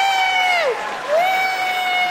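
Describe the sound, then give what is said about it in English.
Audience applause and cheering at a comedy show: a steady wash of clapping and crowd noise, with a piercing whistle-like tone on top that dips in pitch and then rises again. “How many people here by applause are 40 or younger? 40 or younger, applaud.”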